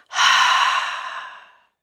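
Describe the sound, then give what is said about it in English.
A deep breath exhaled through the mouth during a guided relaxation breathing exercise: one long, breathy rush of air that starts strong, holds steady, then tapers off and fades to silence. “You're going to take a deep breath in through the nose and hold it. And exhale through the mouth.”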